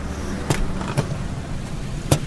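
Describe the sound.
Road traffic on a main, newly paved road beside a gas station in Juba, South Sudan, forms a low, steady rumble broken by a few sharp clicks.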